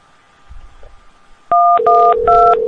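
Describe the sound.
Telephone keypad tones as 0 is pressed: three short, clear dual-pitched beeps in quick succession, the last two sounding over a steady low tone, preceded by near silence.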